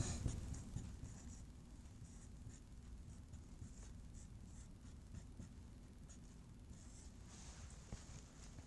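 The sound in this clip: Faint scratching of a pen or chalk as an equation is written out by hand. The texture is continuous and low in level, with soft strokes running steadily throughout.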